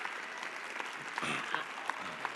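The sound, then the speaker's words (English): Audience applause during a pastor's sermon: dense, steady clapping throughout, fairly faint, with no clear voices over it. “I didn't see a single Longhorn clapping for me, though.”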